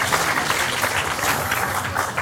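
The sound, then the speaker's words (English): A live show audience applauds in a thick, continuous wash of clapping, loud and even from start to finish. “big round of applause for Emma”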